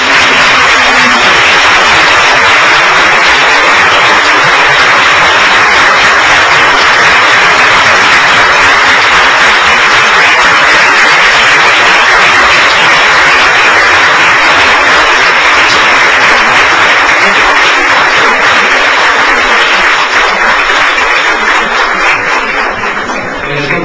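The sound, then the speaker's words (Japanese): Audience applause at the close of a lecture as the lecturer and chairman leave. It is a loud, dense, continuous roar of clapping that holds evenly through the whole stretch. “もう一度盛大な拍手をして、”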